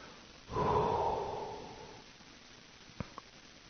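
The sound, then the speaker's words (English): A single slow exhale during meditation, a soft breathy rush that starts abruptly and fades away over about a second and a half, followed by two faint clicks. “Pay attention to your breath. When you breathe out, say the word out.”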